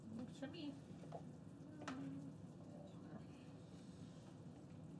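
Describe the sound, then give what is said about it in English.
Steady sizzle of chunky vegetable pieces sauteing in a pan over medium heat for a stew, a continuous bright frying hiss with small crackles that holds at an even level throughout. “So we're sauteing this on medium for a little while.”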